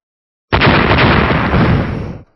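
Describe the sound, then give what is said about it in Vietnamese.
A loud explosive roar from a string of big blasts against a vast crimson shimmering barrier. It erupts abruptly and holds a dense, broad, rumbling intensity for nearly two seconds before cutting off, without clearly separated bursts. “Những tiếng nổ lớn vang lên liên tiếp”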